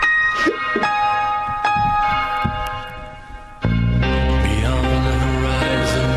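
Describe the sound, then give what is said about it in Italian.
A church bell rings with a few metallic clangs, then swells into a louder sustained peal with long, layered ringing overtones. “Hanno suonato un po' di campana.”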